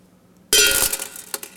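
Six BB pellets are dropped into a container. They land in a sudden cluster of bright metallic clinks that rattle and fade, and a few fainter clinks follow a moment later.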